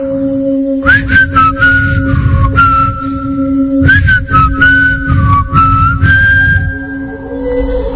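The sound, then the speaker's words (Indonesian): A person whistles idly while looking at a phone, a wavering melodic tune with sliding notes in a few phrases, over a steady low hum and background noise. “Aku melihat-lihat handphone sambil ya refleks aku bersiul entah kenapa.”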